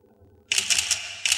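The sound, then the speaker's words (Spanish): A camera taking portrait photos of commando members for forged identity papers, one shot after another. Several sharp, bright shutter clicks come in quick succession, a brief pause, then one more click. “Hace fotos a todos los miembros de los comandos. Finalmente hace una foto a Chema.”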